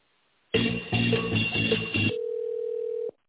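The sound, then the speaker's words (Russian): A telephone line rings while a call to a company is transferred to a secretary. After a short burst of fuller sound, a single steady mid-pitched tone holds for about a second, then cuts off. “А сейчас звонок будет принят секретарем.”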